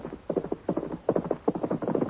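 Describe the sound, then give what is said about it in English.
Hooves of a horse ridden fast: quick, rhythmic clip-clop beats in repeated galloping groups of three or four, steady and fairly loud throughout. “There's Reynolds now. Him ride from ranch and him ride fast.”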